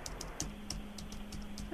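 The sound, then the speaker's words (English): Typing on a computer keyboard gives a quick, irregular run of light clicks over a steady low hum. “Let me type this in.”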